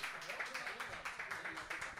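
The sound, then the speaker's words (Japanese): Faint audience applause welcoming a shop manager: steady, evenly paced clapping from a small crowd that continues throughout. “拍手お願いします。”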